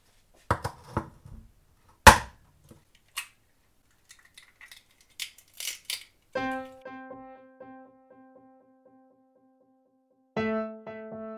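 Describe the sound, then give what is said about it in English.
Eggs are cracked and the whites separated into a bowl of sieved sugar for peppermint drops: several sharp taps and clicks, a scatter of small shell and handling noises, then two sustained ringing tones. “And then I'm going to separate the egg whites.”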